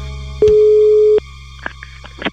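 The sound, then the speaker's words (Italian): A steady telephone tone after a dropped call, one flat pitch held for under a second, followed by a few faint clicks and short blips. “Deve essere caduta la linea. Lo richiamo subito.”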